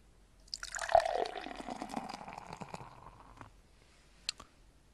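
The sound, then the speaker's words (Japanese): Brooklyn beer pours from a can into a pint glass: a faint fizzing, gurgling stream that lasts about three seconds and tapers off, followed by a single small click. “まあパイントグラスに入れていきます。とりあえずブルックリンなんか注いでいきますよ。”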